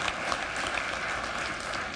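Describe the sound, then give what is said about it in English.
A church audience applauding members of the deacons ministry, dense steady clapping from many hands that stays even and loud for the whole moment. “Let's give them the round of applause, those who serve in our deacons ministry.”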